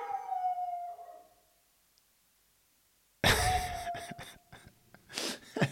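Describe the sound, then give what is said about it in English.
A dog howls in a drawn-out, falling tone that fades away. After a short silence it breaks into a harsh burst of barking, then a wavering howl and a few more sharp barks, all fairly faint. “You can't bark like that while I'm shooting a podcast, dude.”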